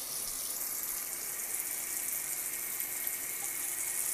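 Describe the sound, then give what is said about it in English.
Water running steadily from a tap while recycling is rinsed out, a soft, constant hiss that holds without breaks or splashes for the whole stretch. “I'm just going ahead and rinsing out my recycling.”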